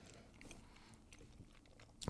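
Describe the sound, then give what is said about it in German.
Someone chews curry sausage with soft, faint bites and moist mastication noises, scattered irregularly through a quiet stretch. “Schmeckt auf jeden Fall nach Curry. Ja, so viel. Und nach Wurst. Sei gesagt. Mhm. Ich esse das jetzt erstmal in Ruhe auf.”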